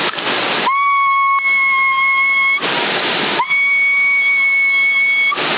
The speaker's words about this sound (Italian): No, quando fischi c'ho picchi. C'ho segnale ancora più alto quando fischio io.